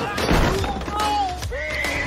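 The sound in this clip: A horse neighs in a loud, wavering whinny, its pitch sliding up and down across a couple of bursts.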